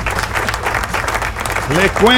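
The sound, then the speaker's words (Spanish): Applause in a studio, a dense, steady wash of clapping that holds at an even level for about two seconds before a voice starts speaking over its end. “Aplauso.”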